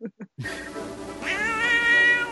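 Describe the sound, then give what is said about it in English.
Cat meowing: two short chirps, then one long, loud, drawn-out meow that rises in pitch partway through and holds to the end. “Well, of course you didn't. You're a cat. I'm talking to a cat.”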